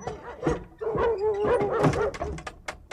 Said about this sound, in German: Drei Hunde drangen mit zornigem Gebell auf uns ein.